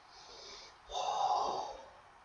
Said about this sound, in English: I'm breathing heavy. I can't breathe and talk at the same time.